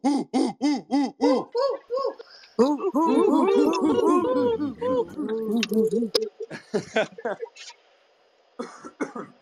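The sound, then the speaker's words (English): Voices in an online audio chat room imitate owls hooting, with a rapid series of rhythmic, pitched hoots at first, then several overlapping voices hooting and cheering, followed by scattered short bursts. “That was good. It sounded like owls. Sounded like an owl.”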